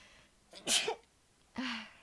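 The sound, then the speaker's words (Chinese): A person sneezes, a sharp, breathy burst followed by a shorter voiced burst, both quiet, with no talk around them. “我要打喷嚏”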